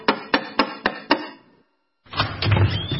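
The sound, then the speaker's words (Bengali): Five sharp, evenly spaced knocks on a door ring out loudly, then fall silent before a rougher noise starts. “এমন সময় দরজায় টোকা পড়ল।”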